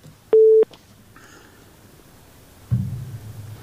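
A single steady telephone busy-signal beep sounds after a caller's line drops. It is loud and brief, then gives way to faint low noise with no talk.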